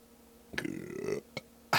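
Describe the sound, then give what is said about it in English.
A man burps into a microphone while tasting a smooth 5.9% beer: a single loud, low, croaky belch lasting over half a second, followed by a couple of brief noises. “Ian's not around, so I have to burp into the microphone here.”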